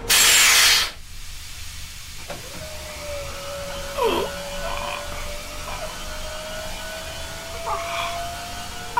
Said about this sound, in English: Isolation chamber sealed. Begin depressurization. Reducing air pressure by 5%.